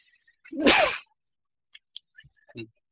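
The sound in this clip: A single loud, sharp sneeze bursts out with a breathy hiss, followed by a few faint clicks and small knocks.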